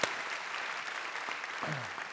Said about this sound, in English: We should clap for that.